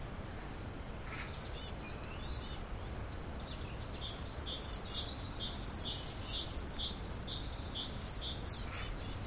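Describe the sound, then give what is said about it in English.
A blue tit and a great tit sing, the great tit with its two-tone call, in high, thin, repeated chirping phrases that come in short bursts over a faint low background hum. The song is fairly quiet throughout. “So the blue tit's near us, great tit's slightly further away,”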